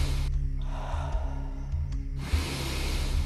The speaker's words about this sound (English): Out, breathe in, breathe out. Keep going, you're fine. And again.